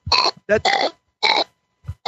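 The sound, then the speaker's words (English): A fart machine sound effect lets out several short, buzzing, rasping blasts of uneven length separated by brief gaps, loud and alone. “Okay, how about the fart machine?”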